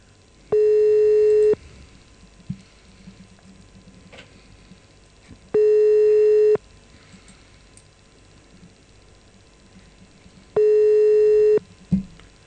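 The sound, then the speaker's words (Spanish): Telephone line tones sound on a call to the comuna 8 police station in Lugano: three steady buzzing tones of about a second each, separated by roughly four seconds of faint line hiss with soft clicks, and a dull thump near the end. “estamos llamando a la comisaría 8, no, a la comisaría de la comuna 8 en Lugano.”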